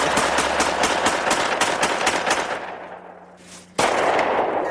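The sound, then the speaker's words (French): Gunshots from shooting practice in a forest: many sharp, rapid bursts of gunfire in a dense volley that gradually fades, then breaks off before another loud burst returns near the end. “Chez eux, les policiers découvrent un film où on les voit qui s'entraînent à tirer dans une forêt.”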